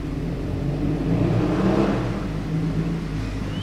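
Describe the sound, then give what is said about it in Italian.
A motorcycle passes at full speed on a city street. A broad engine roar swells toward the middle and eases off, over a steady, loud wash of noise throughout. “È una moto che è passata a tutta velocità, anche meglio, quindi rumori urbani”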